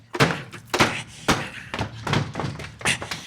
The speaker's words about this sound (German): Also dann, ich stoß die Tür auf und dann machen wir es wie im Lehrbuch.